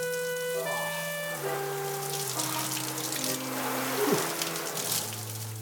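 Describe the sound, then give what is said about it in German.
Hot shower water runs steadily in a shower room, a continuous spraying hiss layered with sustained low tones that step downward in pitch, with no voices. “Und dann herrliche Entdeckung, das Warmwasser, richtig kochend heiß und unendlich.”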